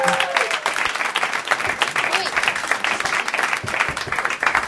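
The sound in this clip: Audience applause for a guest called up onstage at a live show, with dense, steady clapping throughout and a voice briefly heard at the start.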